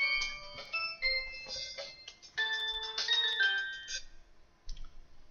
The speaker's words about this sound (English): That was my phone. I'm hoping I'll cut that part out.